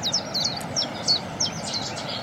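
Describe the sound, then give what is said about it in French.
A Cetti's warbler sings a run of quick, high chirping notes in short repeated bursts over a steady low background rumble. “Puis la bouscarde qui chante derrière nous en plus.”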